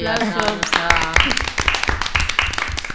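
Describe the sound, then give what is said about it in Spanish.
A small group applauds in a quick burst of sharp hand claps, irregular and lively, mixed with people talking over them. “Bai, bai, aplauso.”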